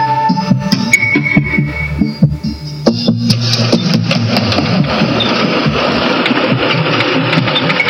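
A car engine drones steadily as the vehicle drives through the outskirts of Phnom Penh, a loud, continuous mid-pitched hum with faint mechanical rattles throughout.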